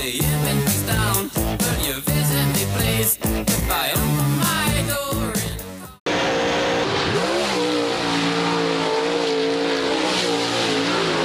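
Go-karts racing at the Little 500 race: a loud, continuous engine roar with whining, shifting revs that changes character abruptly partway through and then drones on steadily.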